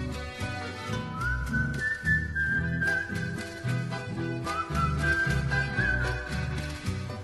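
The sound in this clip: Soft whistling carries a melody in two phrases within a Spanish-language song. It sits over steady, rhythmic instrumental accompaniment, staying gentle and light throughout.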